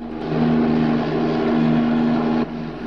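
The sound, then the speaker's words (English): A propeller airplane flies level in a steady, loud droning hum with a low buzzing tone, its pitch holding even and dipping slightly in level near the end. “The plane straightens out.”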